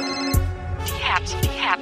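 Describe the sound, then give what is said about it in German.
A telephone rings while a radio hotline is being called: a bright electronic ringtone sounds in two trilling bursts over a steady tone. “Und dazu wählen wir jetzt unsere Herzo-Hotline.”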